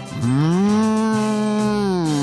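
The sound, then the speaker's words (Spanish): A human voice imitates a white cow with black spots mooing, giving one long, loud, low moo that holds steady and then drops slightly at the end, with no other sound. “¿Cómo muge una vaca blanca con manchas negras?”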